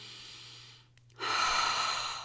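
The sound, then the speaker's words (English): Deep breathing: a soft inhale, a brief pause, then a longer and louder breathy exhale with no talking. “Inhale and exhale.”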